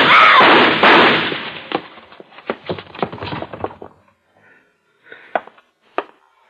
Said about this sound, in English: What were those shots?